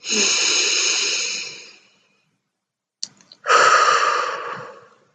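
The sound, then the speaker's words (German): Deep breaths taken during a guided body-awareness relaxation exercise: two long, breathy sighing sounds separated by a pause, with a small click just before the second, both fairly loud and fading at their ends. “nimm einen tiefen Atemzug und spüre deinen Körper und deine Unterlage.”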